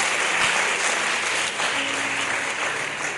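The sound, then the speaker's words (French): An audience applauds a bishop with dense, steady clapping that holds at an even level for a few seconds. “Oui, nous pouvons acclamer pour l'évêque.”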